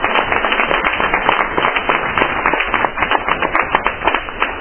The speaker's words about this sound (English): I just want to give a round of applause to Grisha